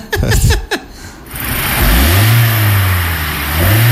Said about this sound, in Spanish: ¿Pero y ese de qué motor es? Es del que estábamos hablando, del Kia Forte 2017, que nos comentaba que no le da las velocidades.